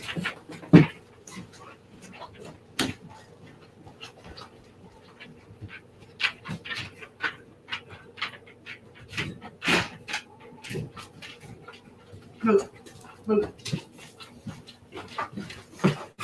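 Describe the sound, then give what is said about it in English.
A dog comes in through the front door, panting and snorting with soft whimpers and scattered light clicks. The sounds are faint and irregular over sixteen seconds. “my dog just walked in”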